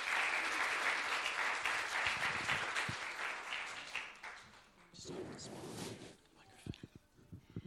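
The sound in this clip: A church audience applauds to welcome a speaker with dense, steady clapping that gradually thins out and fades. Scattered claps and voices follow near the end.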